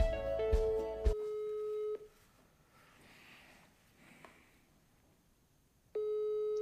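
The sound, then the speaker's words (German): During an outgoing call to an institute in Potsdam, a telephone ringing tone plays as steady single-pitch beeps in two bursts with a long quiet pause between them. A brief burst of mixed tones comes before the first. “Zeit, bei Viktoria anzurufen, meine Ansprechpartnerin am IISS in Potsdam.”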